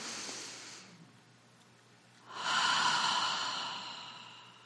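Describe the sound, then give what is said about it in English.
A deep breath drawn in: a long, airy hiss that swells quickly and then slowly tapers off. A shorter, softer breath comes before it. “All you have to do is take a deep breath in.”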